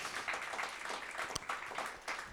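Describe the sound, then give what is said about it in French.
Audience applauding at a church gathering, a dense, steady wash of many hands clapping at an even level throughout, with no voices standing out. “on peut les applaudir quelques instants, les encourager.”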